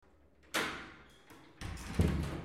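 A door is opened, giving a few dull thumps and clattering bumps, with a sharp knock-like hit first and a busier burst of movement near the end.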